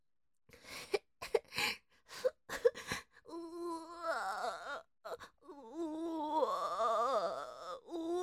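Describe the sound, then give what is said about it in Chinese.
Slowed, drawn-out crying voiced for a sloth character who has lost a contest. Low, wavering wails follow a few short, choppy vocal bursts. “哦，他连哭都很慢，我们帮他快转一下好不好？”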